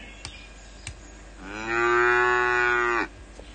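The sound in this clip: A cow gives a single long, loud moo, steady and rich in tone for about one and a half seconds, after two faint clicks.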